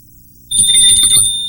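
A hand bell is shaken and rung during a Buddhist teaching: after a short quiet moment, bright high ringing tones start abruptly and hold steady, with a low rattling rumble underneath.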